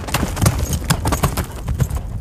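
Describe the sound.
A horse walks slowly under a rider, its hooves clip-clopping in a steady, even rhythm of many hoof falls against a continuous background hiss.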